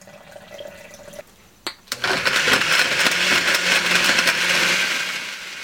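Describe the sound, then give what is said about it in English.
A blender chopping lime, sugar and water: after a brief click, the motor kicks in and runs as a loud, steady whirring roar for several seconds, easing slightly at the end. “add the lime, sugar, and water into the blender and pulse it for about 10 seconds until all of the lime is nicely chopped up”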